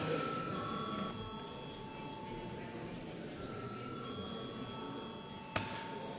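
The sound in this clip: A chamber bell rings before a vote in a parliamentary hall, a steady sustained electric-sounding ring that runs almost unbroken through the whole clip over a low background murmur, with one sharp click near the end.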